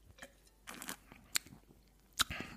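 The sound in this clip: A first sip of a fruity apple and rosehip drink: quiet slurping and mouth sounds with a couple of sharp clicks, alone without talk.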